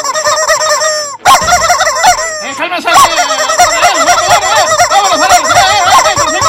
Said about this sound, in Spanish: Le dejo el programa a los pollos, ellos van a conducir de aquí hasta que se acabe, así es que escúchenlos bien.